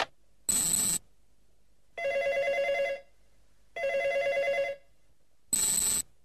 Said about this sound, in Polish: Odbierz, gdy zadzwoni telefon.